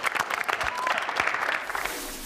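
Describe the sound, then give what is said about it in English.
A round of applause after a warrior yoga pose demonstration: dense, steady clapping that fills the whole clip without pause. “see the round of applause for that one”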